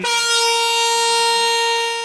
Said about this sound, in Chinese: 随着汽笛鸣响，这辆满载近1000吨聚氯乙烯的中亚班列西宁至胡志明缓缓驶出。